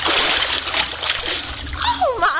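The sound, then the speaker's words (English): Splashing water as a man dives in and swims underwater: a continuous, loud churning splash and slosh, with a voice briefly heard near the end. “He's actually swimming underwater.”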